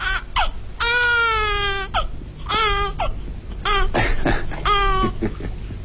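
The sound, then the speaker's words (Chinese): A newborn baby boy cries in several high, wailing bouts of varying length, some long and drawn out, others short and broken, loud against a low background. “好，别哭，别哭，别哭，儿子。 孩子降生了”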